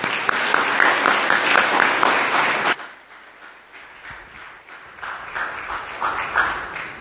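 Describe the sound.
A church audience applauds to welcome a speaker, a loud, dense wash of clapping that cuts off abruptly partway through and leaves a quieter, scattered patter.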